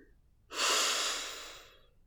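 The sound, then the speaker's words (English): One long inhalation during a guided relaxation exercise. A soft, airy breath swells quickly and then fades slowly over about a second and a half. “leaving your arms as you exhale. And wiggle your fingers. Breathe in.”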